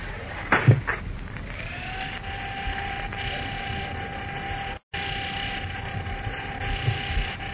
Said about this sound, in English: Here comes the elevator. A lobby, please.